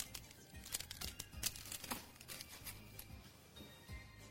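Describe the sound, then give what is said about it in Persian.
A knife slicing a crispy onion and almond tart gives quiet, dry crackling crunches, many small crinkling snaps in an uneven run. “این یه تارت پیاز و بادوم فوق‌العاده است. حالا یه تیکه برش میزنم ازش. صدا رو میشنوید؟”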